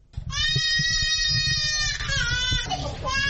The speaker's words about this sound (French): C'est le cri d'un enfant malnutri en consultation au centre nutritionnel situé en plein désert à 55 km de la ville d'Andaras et à 7 km de la frontière Tchad-Soudan.